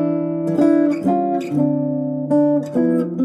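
A jazz 3-6-2-5-1 chord progression in C (E minor 7, A7, D minor 7, G7) resolving to C major 7, played as sustained, ringing chords that change several times in steady succession, with no voices.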